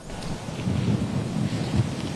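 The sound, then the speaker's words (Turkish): Rain and gusting wind on a stormy, rainy day in Istanbul, heard as a steady, fairly loud wash of hiss over a deep, rolling low rumble that swells slightly but never breaks, with no voices. “Yağmurlu ve rüzgarlı bir İstanbul gününde meteorolojiye ilişkin detaylar”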